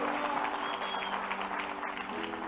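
Faint applause and cheering rise from a church audience during an 11 a.m. worship service. The soft, continuous clapping sits over a low tonal hum.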